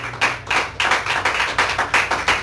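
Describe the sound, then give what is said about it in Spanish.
A church audience claps its hands in a steady, even beat of many loud claps, with no voices over it. “Démosle palmas al Señor, hermanos”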